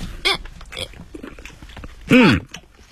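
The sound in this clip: Someone bites and chews steamed buns, producing soft, moist chewing sounds, with a short voiced murmur early on and a longer, louder voiced hum near the end.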